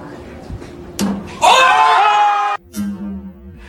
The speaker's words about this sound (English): did you hear the slapping of the meat when it hits the floor